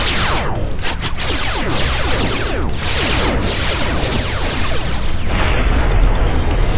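Sci-fi starship weapons fire and an explosion from a direct hit: a loud, dense, sustained roar of blasts and rumbling that runs without a break through the whole clip, with no voices.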